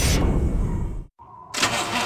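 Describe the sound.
A car engine struggles to start, cranking noisily, cutting out briefly midway, then bursting back into rough cranking.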